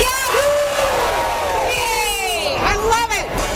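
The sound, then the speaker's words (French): A crowd cheers and whoops at the official Stampede pancake breakfast in downtown Calgary. Rising and falling shouts ride over dense babble, with a few loud swooping whoops near the end. “C'est ce que vous entendez, c'est le premier déjeuner aux crêpes officiel qui se déroule en ce moment au centre-ville de Calgary.”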